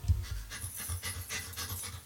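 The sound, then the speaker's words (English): A family dog pants in quick, rhythmic, breathy bursts, a steady run of many short huffs with soft low thumps and no voices. “To some, this might sound like a typical family dog.”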